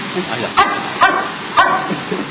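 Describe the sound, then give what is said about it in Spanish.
A dog barks three times, with short, evenly spaced woofs that are mid-pitched and fairly loud over a steady background murmur. “Ahí León quiso ladrar. Ah, mira. León quiso. León le está hablando, le está diciendo, ponete la pila, Diablo.”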